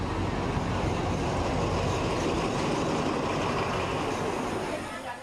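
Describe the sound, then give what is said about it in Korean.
A train arrives on a railway line in Thailand with a loud, steady rumble and clatter that fills the whole clip and eases slightly at the end. “이제 기차가 도착하고 있습니다.”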